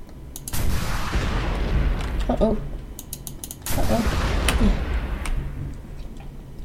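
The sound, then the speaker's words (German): Gunfire aimed at a tank in a video game, two long loud bursts of rapid shooting laced with mechanical clatter and creaking, each followed by a quieter lull. “Ich schieß den Panzer ab. Und zack. Und zack. So lange bis er tot ist,”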